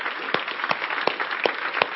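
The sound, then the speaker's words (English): A church audience clapping during worship: five sharp claps in a steady, even beat over a continuous noisy background. “So I want us to stand up for just a moment right now, and I want us to clap.”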